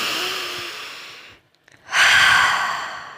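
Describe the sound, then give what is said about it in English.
A deep breath: a long, airy inhale, a brief silent pause, then a louder, breathy exhale that slowly fades, with no talking. “So take a deep breath.”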